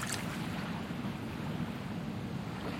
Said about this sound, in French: Au-delà des murs, il y a... Il y a une mer.